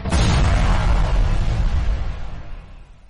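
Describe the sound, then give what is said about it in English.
An explosion sound effect, a sudden loud blast with a deep, rumbling low end that slowly decays and fades out over about three seconds. “Oh no, the podcast exploded.”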